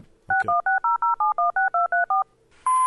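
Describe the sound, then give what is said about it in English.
Telephone keypad dialing tones as a phone number is entered: a quick, even run of many short two-note beeps at varying pitches, followed by a louder sustained tone. “Tonight, he finally works up the courage to call her. Okay. 5-2-5.”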